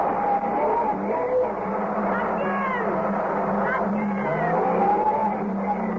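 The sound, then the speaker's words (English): Car wheels spinning in sand: a loud, continuous engine roar with wavering, whining tire tones that rise and sweep throughout, with voices over the noise. “Oh, God, the wheels are spinning.”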